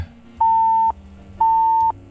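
Phone line tone after a call-in caller's connection drops: two identical steady, mid-pitched beeps, each about half a second long, separated by a short silent gap.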